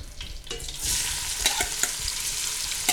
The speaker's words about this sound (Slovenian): In v tem olju zdaj, v katerem sem pač opražil meso, bom zdaj opražil čebulo.